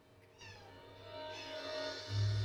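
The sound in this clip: A female cat meows in one long, drawn-out, tonal cry that starts after a brief quiet moment and carries on almost to the end, moderately loud with no talk over it.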